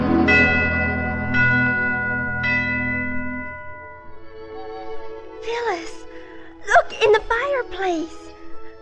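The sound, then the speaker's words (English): Ringing bells on Christmas Eve: a few bright struck chimes with long, resonant tones that slowly fade, followed by voices talking. “Hey, Alice, what are those bells?”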